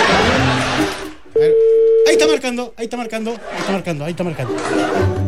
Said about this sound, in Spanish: Ahí está marcando.